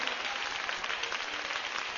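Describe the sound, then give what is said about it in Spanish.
Church audience applauding, a dense and steady wash of clapping that holds at an even level throughout, with no talk over it. “Démosle un aplauso al Señor, hermana, hermano.”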